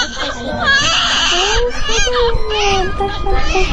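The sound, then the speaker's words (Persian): A newborn baby cries in a hospital maternity ward in Tehran, on the day of its birth. The cry is loud and high-pitched, a continuous wailing that rises and falls in strained, quavering bursts. “اینجا بخش نوزادان یکی از بیمارستان های تهرانه و صدایی که میشنوین صدای گریه یکی از نوزادانه.”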